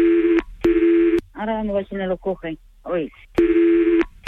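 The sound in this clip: Short bursts of a steady telephone call tone while a call is placed to cancel an order, a few tone pulses at the start and end with a voice talking briefly in the gap between them.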